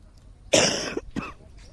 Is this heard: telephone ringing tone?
no